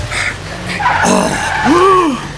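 A car's tires screech in a sharp skid as it brakes hard for a boy running into the road. The squeal bends in pitch over a rough, loud rush of noise.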